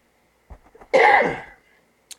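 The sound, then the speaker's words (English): A single loud, breathy cough bursts out after a few faint small sounds and trails off over about half a second, followed by a brief faint click. “had to get a little bit of a cough out of my system there”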